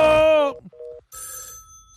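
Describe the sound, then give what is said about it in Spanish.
A telephone rings with bright electronic chirping tones, following a short sustained tone and a brief pause; no talking is heard. “Teléfono, dame el teléfono.”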